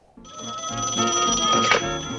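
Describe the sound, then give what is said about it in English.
Telephone ringing inside a lighthouse at night: a continuous, bright bell-like ring holds steady for about two seconds, heard alone. “The lighthouse shines its beam into the night. Inside, the phone rings.”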